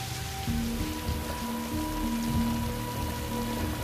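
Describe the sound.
Heavy rain pours down in a steady downpour, a dense, even hiss that holds at a constant level throughout, with low humming tones running beneath it.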